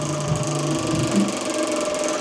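Rapid ratcheting clicks of a prize wheel being spun, a dense, steady run of mechanical ticks that holds at a fairly even pace and loudness for the whole stretch, with no voices.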